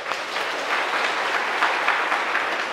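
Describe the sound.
Audience applause at a Buddhist lecture: dense, even clapping from many hands, sustained at a steady level for about three seconds without a break.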